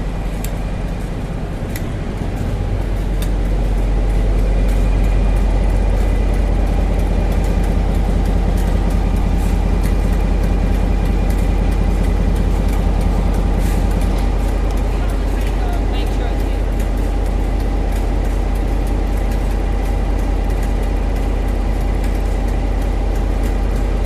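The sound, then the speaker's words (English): Loud, steady rumble of a passenger train ride on a suburban line stopping at Glen Innes, a dense continuous roar with rattling texture throughout, and indistinct voices faintly present underneath. “So let's get on the train and we'll hear some awesome announcements.”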